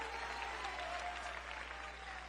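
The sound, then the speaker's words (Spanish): A church audience applauds the Lord during a sermon, a faint, even stream of clapping that holds steady for the whole stretch, with a low hum underneath. “Ese aplauso al Señor.”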